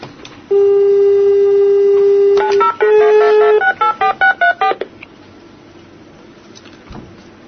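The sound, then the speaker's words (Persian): A phone number is dialled on a keypad to reach a fund's public relations office: a long steady tone, then a quick run of short, clear keypad beeps at varying pitches, alone with no voices. “میخوایم ارتباط بگیریم با روابط عمومی این صندوق ببینیم که این اتفاق صحت داره یا نه.”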